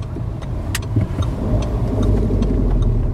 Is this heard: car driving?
yes